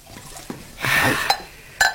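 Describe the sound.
Plum brandy poured into glasses: a short splashing pour with glassy clinks, a sharp clink at its end and another a moment later.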